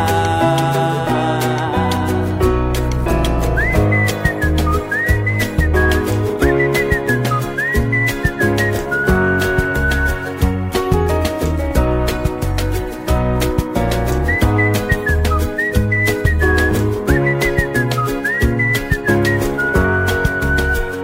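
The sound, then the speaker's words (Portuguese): A person whistles a bright, lilting tune over a steady, rhythmic musical backing. The whistled phrases repeat in short melodic bursts throughout, loud and clear, with no singing or talk. “E quem diria que esta alegria me pusesse logo, logo a assobiar.”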